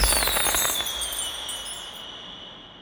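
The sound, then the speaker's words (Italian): A firework sound effect: a high whistling tone that slowly falls in pitch over a crackly hiss, the whole sound fading steadily to near silence. “Fuochi! No, aspetta, questo doveva essere un effetto sonoro.”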